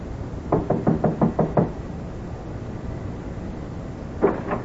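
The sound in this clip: Knuckles rap on a warped, dark-stained wooden door in a run-down hallway: a quick, even run of sharp knocks, then a single knock after a pause of a few seconds.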